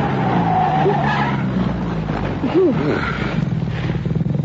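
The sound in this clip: A car braking hard and skidding on a road: tyres squeal in loud, wavering high-pitched arcs over a steady, heavy engine drone.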